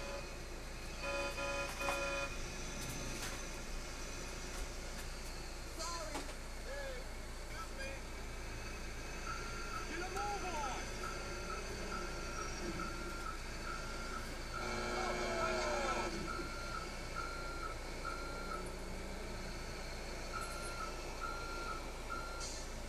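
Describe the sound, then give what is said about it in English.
A truck backing in, its reversing alarm sounding a long series of evenly spaced beeps at a steady pitch over a constant low engine rumble, with some clatter and brief knocks early on. “I like to back the truck in, guys.”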